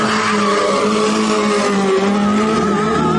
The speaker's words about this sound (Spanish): Los jóvenes se van con el coche